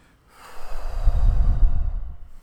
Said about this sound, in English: Squeeze all your air out right now. By bending over and as though you're doing a sit-up.